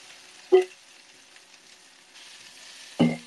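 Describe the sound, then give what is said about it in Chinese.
Oil sizzles in a pan as eggplant is added, a faint, steady frying hiss broken by two brief, louder bursts near the start and the end. “滋滋滋的声音，是油在滋滋滋的声音。茄子倒进去吧，”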